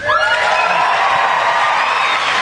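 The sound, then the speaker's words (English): A studio crowd at a 2005 football TV show cheers and whoops loudly, a dense sustained roar of many voices with high shouts on top, holding steady for the whole stretch. “He's got a big crowd there, man.”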